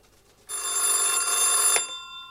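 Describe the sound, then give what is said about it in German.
A telephone bell rings for an incoming call, a single bright metallic ring of about a second and a half, loud and alone, ending with a brief clack and a fading ringing tail. “Einen Tag später wurde er wieder angerufen.”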